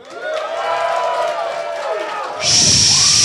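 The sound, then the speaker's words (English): A small audience briefly cheers in response to a question comparing Schwarzenegger and Stallone. Talk comes first, then a short burst of a few voices cheering and whooping at the end. “So a couple people cheered and one person threw up.”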